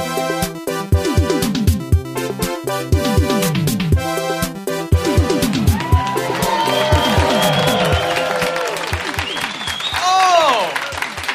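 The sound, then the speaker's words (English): Crowd cheering and applauding in a room packed with people at the European Beer Cafe bar in Melbourne. The noise is loud and sustained, with rising and falling whoops and shouts throughout and a steady tonal background underneath. “Look at this room full of people at the European Beer Cafe in Melbourne.”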